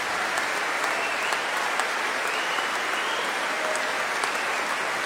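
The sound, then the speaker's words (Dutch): Audience applause after a concert of early-music instruments, including viola da gamba, bassoon and serpent: steady, even clapping that holds at one level throughout. “Applaus op voor Lucille Perret op fagot.”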